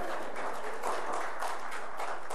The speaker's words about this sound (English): Is he right? Let's give him a round of applause.